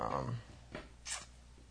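Faint scratching of a pen writing by hand on paper, a few soft, brief strokes with quiet pauses between them.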